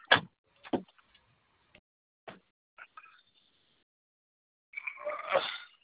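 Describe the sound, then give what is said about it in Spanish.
Doors being opened: a few sharp, separate clicks and knocks spaced over several seconds, then a longer burst of rustling, scraping noise near the end. “Te abro las puertas.”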